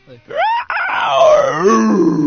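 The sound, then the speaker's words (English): A man's voice imitates a dinosaur roar with loud, drawn-out, groaning howls. A short cry breaks off, then a long sustained roar follows whose wavering pitch dips and swells before trailing off. “All right, let's hear your best dinosaur impression. I'm going to do more of like an inhale.”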